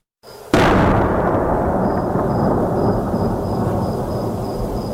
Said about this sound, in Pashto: د ډي سي توپ لوی فایرونه شار لرزوي.